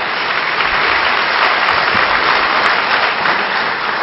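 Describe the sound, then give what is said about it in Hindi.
A conference audience claps together in a dense, steady wash of applause that stays even from start to end, with no voices. “तो ऐसा ना करना पड़े, इसलिए क्या करने का, ताली बजाने की।”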